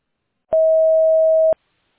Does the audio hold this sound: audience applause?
no